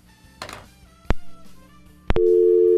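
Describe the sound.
A telephone tone follows a radio call-in caller's dropped line: sharp clicks, then a loud, steady tone that runs to the end.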